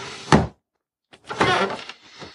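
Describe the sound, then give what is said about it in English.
A desk scooted across the floor: a single heavy thunk, a short silence, then a longer rough scraping drag that gradually tapers off. “Can you scoot my desk over here near my bed of cushions and grab the list out of the drawer for me?”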